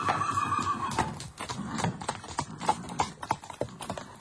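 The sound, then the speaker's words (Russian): Horses pulling a tarantass carriage as it is driven off. A horse whinnies at the start, then a run of sharp hoof clip-clops follows, the beats growing more distinct toward the end. “Затем он сел в тарантас и со странным выражением, точно боясь погони, ударил по лошадям.”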